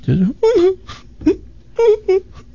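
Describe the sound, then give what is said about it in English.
An old man's heavy sobbing imitated by a voice: a series of wailing, whimpering sob bursts broken by short pauses, some drawn out and others brief and choked. “This guy's walking down the street, and he hears this just incredible sobbing.”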